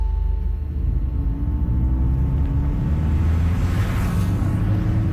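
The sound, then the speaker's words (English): A car driving down a freeway from Los Angeles toward Long Beach, California, heard as loud, unbroken low engine rumble and road noise that lasts throughout, with a gentle hissing swell toward the end. “I'm driving down the freeway from my house in LA to the satellite city of Long Beach, California.”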